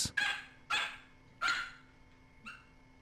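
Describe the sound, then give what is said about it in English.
A dog barks three times in sharp, evenly spaced barks, followed by a fourth, fainter and shorter yip. “it's a very touching thing to see, because for all we know, this dog could be a mother dog right now, or a papa dog. Could have some yip-yip puppies of its own”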